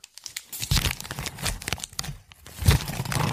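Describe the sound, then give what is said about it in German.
A gift being unwrapped, paper crinkling and tearing around a square cardboard box with a sticker on it: continuous loud rustling, crumpling and ripping with irregular bursts, with no voices. “du kannst ja jetzt mal dein Geschenk aufmachen”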